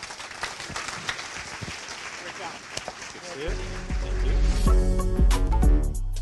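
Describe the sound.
Audience applause for a startup CEO's interview: steady clapping that gives way to loud music partway through.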